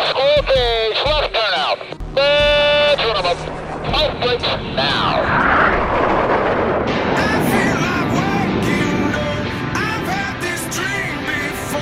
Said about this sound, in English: Clear for takeoff. Check your parking brake off. Check your trim set. Check your nozzle steering on maneuver.